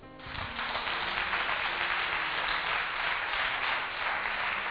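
A church audience applauds during a service, a steady, even wash of clapping that sounds muffled and dull, holding the same level from start to finish.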